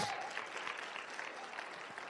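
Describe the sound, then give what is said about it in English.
A church audience claps their hands during a morning service, a soft, steady wash of many hands clapping together that holds evenly throughout without any clear break. “Come on, clap your hands this morning.”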